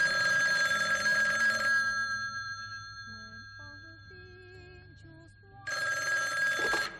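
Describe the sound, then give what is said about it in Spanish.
A telephone rings in two long bursts of bright, trilling bell, one at the start and one at the end, with soft tonal music in the gap between. “Y de repente te suena el teléfono”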